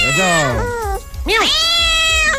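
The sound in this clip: A person imitates a cat meowing with a few loud, nasal, drawn-out calls whose pitch arcs up and then down.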